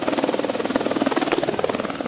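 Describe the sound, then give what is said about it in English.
Helicopter rotors chop steadily as the aircraft lowers a long steel mesh net of rings over San Ysidro Creek canyon in Montecito, a loud, even, fast pulsing beat with a buzzing engine drone and no voices. “A helicopter drops down a long mesh net of rings.”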